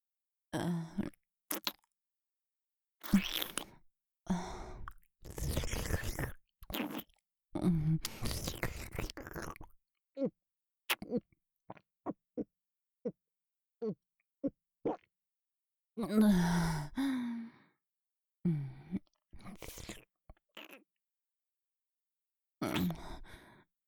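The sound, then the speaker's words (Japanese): Liquid scooped up by hand is drunk with a run of soft, short sips and swallows, interspersed with breathy sighs and grunts, all fairly faint. “どれ、早速手ですくって飲んでみることにしよう。”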